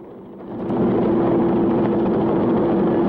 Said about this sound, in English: Coogan and Ringerman board the helicopter as Julie heads back across the landing pad.